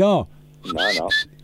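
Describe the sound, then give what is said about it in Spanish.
A person whistles a few brief, high notes of a tune, short whistled tones mixed with voiced sounds. “No, tiene que silbar.”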